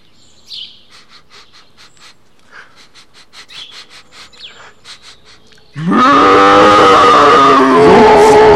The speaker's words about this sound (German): Das Nashorn, ich glaube, das schnüffelt.